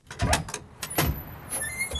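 A door being opened gives two short, broad sliding or scraping bursts close together, followed by a quieter stretch with a thin, high, steady whine.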